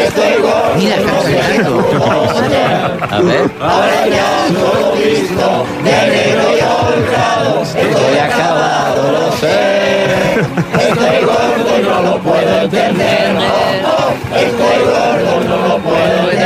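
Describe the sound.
Hundreds of people singing together on Gran Vía in Madrid. The voices form a dense, loud, continuous mass of wavering sung tones that holds steady throughout.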